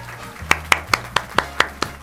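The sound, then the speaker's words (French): Hand clapping in a French radio studio: eight sharp, evenly spaced claps in a steady rhythm over a faint low hum. “Heureusement que le public applaudit à gogo, ma poule.”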